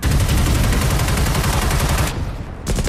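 Machine gun fire in a wartime battle opens into a dense, loud stream of rapid shots. It breaks off briefly, then resumes with another burst.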